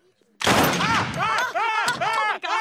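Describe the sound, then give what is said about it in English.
A loud pistol shot bursts out suddenly. Voices crying out and exclaiming right after it overlap the sharp crack and keep going until the end. “are you saying that if I shoot you in the head with this Channel 5 pistol, you'll be completely unharmed? Why don't you give it a shot? Okay, here goes.”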